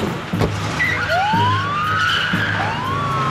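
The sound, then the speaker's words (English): Police car sirens wail as the cars drive off, rising and gliding in pitch, with a steady engine and road rumble underneath and a few low thuds. “The police drive off”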